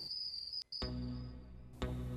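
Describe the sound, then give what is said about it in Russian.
Cicadas sing at night in a steady, high-pitched buzzing drone that holds evenly, broken once by a brief gap before resuming, with a louder swell near the end. “под сияние звезд, под тишину ласковой ночи, под пение невидимых цикад.”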